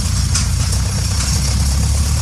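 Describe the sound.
A tractor towing a hitched manure spreader heads out to the field, its engine giving a loud, steady low rumble with a rough, throbbing texture and no talk over it.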